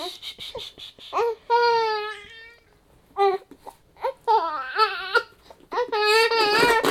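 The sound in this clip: A cranky baby cries and fusses even after being fed, giving several wavering, high-pitched wails separated by short pauses, with softer whimpers between the louder bursts.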